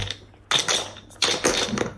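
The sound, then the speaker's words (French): Dice rattle and clatter during a board game in a few short, sharp bursts of bright clicking, separated by brief quiet gaps. “Allez, on y va, on lance les dés.”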